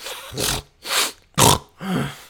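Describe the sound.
A man's voice imitates an angry, pig-like snorting grunt, like a warthog or battle pig: a series of harsh, noisy snorts in a steady rhythm, loud and alone.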